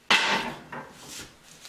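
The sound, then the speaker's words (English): A sharp metallic clank comes from a part of a broken 1934 Kalamazoo Liberty cast iron stove as it is handled. One loud hit is followed by a few fainter knocks and rattles. “This is a Kalamazoo Liberty model off the stove I have out there. But see, it's broken.”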